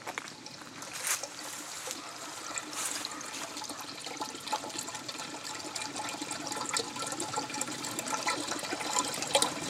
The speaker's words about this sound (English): It's just the sound of a drain. But it sounds so nice.